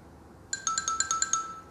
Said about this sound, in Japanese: あ、ピヨピヨしよう、ピヨピヨ。